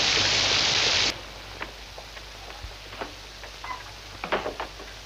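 Rain on a stormy night: a dense, bright hiss that cuts off abruptly after about a second, leaving a softer steady patter with scattered drips and ticks.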